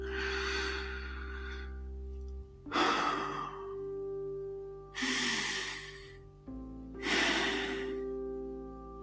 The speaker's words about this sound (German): So, noch drei Atemzüge.